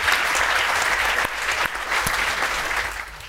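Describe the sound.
Audience applause welcoming a panel of speakers, with dense, steady clapping from many hands throughout that eases slightly at the end.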